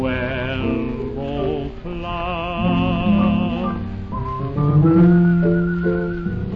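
A man whistles a tune as he walks along, with continuous melodic notes that waver and glide, moving between higher and lower phrases for several seconds without talking.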